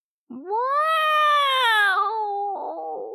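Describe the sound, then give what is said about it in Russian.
A cat yowls in one long, drawn-out, loud wail that climbs slightly in pitch, then sags lower and breaks into a rough, ragged tail at the end. “«Коты!» «Так вопят коты!» «Ну точно!»”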